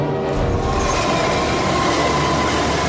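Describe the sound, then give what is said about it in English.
A locomotive-driven train passes with a steady, loud rumbling roar and a rail clatter that runs the whole time, with no voices. “Faster than a speeding bullet. More powerful than a locomotive.”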